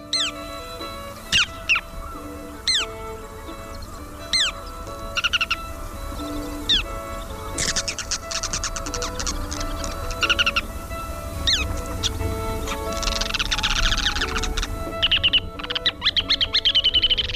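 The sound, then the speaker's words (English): Calls of a ruddy turnstone, a roughly 7-inch shorebird: sharp, high chirps repeat at intervals, then build into denser, rapid rattling chatter toward the end over a steady background hiss. “The ruddy turnstone is about average length for a shorebird, around 7 inches, and sounds like this.”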